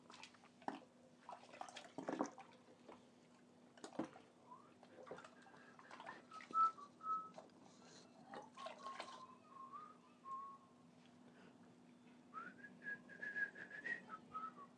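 A person whistles a rock song tune while washing up. Faint, intermittent melodic phrases come and go over soft clinks, knocks and splashes of water.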